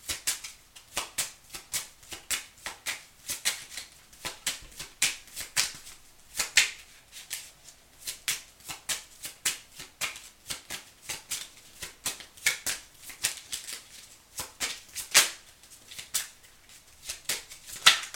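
Tarot cards are shuffled by hand, giving many soft, crisp riffles and slaps in an uneven rhythm, fairly faint, with no talking over them.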